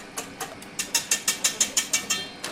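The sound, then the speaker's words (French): A stand mixer beats butter, flour and eggs with a quick, steady run of sharp mechanical knocks, about a dozen in a little over two seconds, with no talk. “dans le batteur mélangeur, ça commence à prendre tournure. On voit le beurre qui est en train d'être aggloméré avec la farine”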